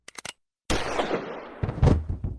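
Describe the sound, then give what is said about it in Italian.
A loud gunshot blasts out after a few faint clicks and a short silence, its broad, noisy burst lingering and decaying, followed by further heavy thumping and rattling noise. “Professore! Oddio, si è sparato!”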